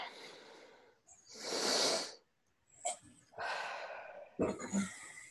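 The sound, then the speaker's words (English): A group of people taking a deep breath together: a loud, airy inhale, a pause, then a long exhale, with a few shorter breathy puffs and snorts around them. “Would everybody take a deep breath?”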